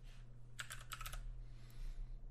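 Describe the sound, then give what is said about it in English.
Typing on a computer keyboard while entering a stock ticker on a finance website: a quick cluster of soft, crisp keystrokes early on, then a few more taps later, quiet over a low steady hum. “We can type in AMGN.”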